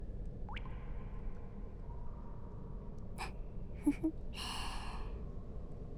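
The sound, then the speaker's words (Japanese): A breathy, drawn-out yawn near the end, quiet against a low background hum. “またあくびだ。”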